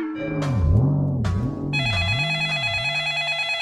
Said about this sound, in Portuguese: ó o telefone, homem, atende aí